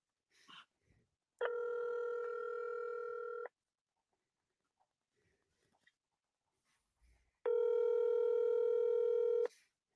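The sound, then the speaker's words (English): A telephone ringback tone as an outgoing call is placed: two long, steady buzzing rings of about two seconds each, separated by a quiet gap with a few faint clicks. “Let's call him up.”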